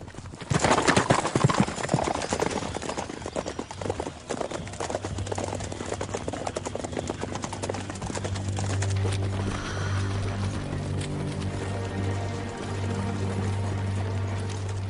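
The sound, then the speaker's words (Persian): Horse hooves clip-clop steadily as a horse-drawn carriage moves along toward a forest, many quick hoofbeats over a continuous low rumble that persists throughout. “به نظرم میتونیم درشکه رو بیاریم جلو.”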